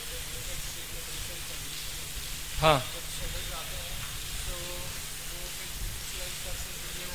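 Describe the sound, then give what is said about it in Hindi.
Steady rainfall makes a constant, even hiss that lasts the whole clip, with one short, sharper burst a little before the middle and faint voices murmuring underneath. “ठीक है, समय हो गया, बारिश हो रही है।”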